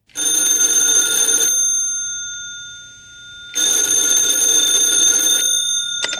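A telephone rings on a radio request line: two long, bright bell-like rings separated by a pause of about two seconds, loud and steady, with no talk.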